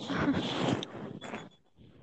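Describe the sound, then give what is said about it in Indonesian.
Rustling noise in a room comes as a few scratchy, crackling bursts of uneven length, loudest at the start and fading toward the end. “Ini siapa kresek-kresek? Gue.”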